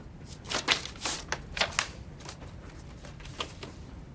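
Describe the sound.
A white envelope is opened and a card drawn out, giving a few short, crisp paper crackles and rustles, fairly faint and clustered near the start.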